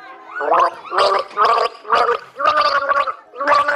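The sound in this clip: Gargled melody of the children's song Alle meine Entchen: a throaty, bubbling voice carries the tune in a string of short, even notes with brief gaps, fairly loud and alone.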